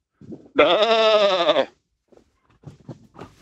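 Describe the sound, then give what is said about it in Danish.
A person's voice imitates a sheep's bleat: one sustained, wavering, nasal bleat lasting about a second, with brief faint vocal sounds before it and a few soft, scattered ones after. “Vi er enige om, at det var et får. Det er korrekt.”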